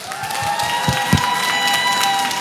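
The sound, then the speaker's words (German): Audience applause and crowd noise at a music festival, a steady wash of clapping with a few louder claps standing out, holding at an even moderate level throughout. “Nochmal einen fetten Applaus bitte für euch.”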